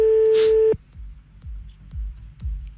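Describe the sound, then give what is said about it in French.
A steady telephone tone sounds after a call is cut off and stops abruptly within a second. A few faint low pulses follow at an even pace. “Oui, je m'excuse, je sais pas ce qui s'est passé, on a encore été coupé.”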